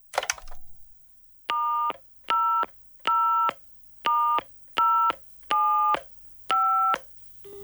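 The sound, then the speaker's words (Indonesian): Touch-tone telephone being dialed: a brief rustle or clatter, then seven evenly spaced electronic keypad beeps, each a steady two-note tone separated by short silences. “Ah, aku telepon Julia aja lah.”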